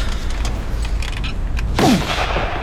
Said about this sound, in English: I suppose, yes, you could try my express nitro.